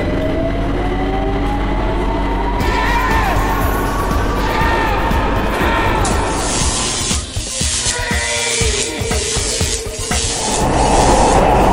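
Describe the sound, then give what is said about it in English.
A public transport train ride, heard as a continuous deep rumble with whining tones over it. The character of the noise shifts partway through, turning rougher with irregular knocks before settling into a steadier roar. “As for the second time in three episodes of Gareth Jones on Speed, I start a show on public transport.”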